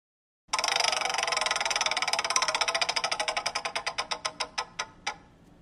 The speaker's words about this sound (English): we're going to spin the wheel and get you a category